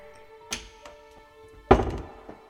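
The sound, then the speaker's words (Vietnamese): A wall cabinet door is opened with two dull wooden-sounding knocks, and the second knock is clearly louder. A few faint taps come before and after, and there is no talking. “Tôi bước đến bên tủ tường mở ra.”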